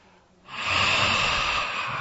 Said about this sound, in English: Imagine you stand before a mirror. You can put the hand here. And you are trying to fog the mirror.